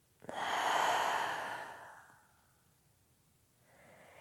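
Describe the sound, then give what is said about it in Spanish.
A deep breath exhaled through the mouth during a guided breathing exercise: one long, airy whoosh that swells quickly and fades over about two seconds, followed by near quiet and a faint breath near the end. “Y última vez inhalas. Llena tus pulmones hasta el fondo y por tu boca sueltas.”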